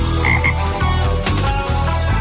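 Toad croaking in a loud, low, rhythmic series of pulsed croaks that repeat about every half second with no other sound around them.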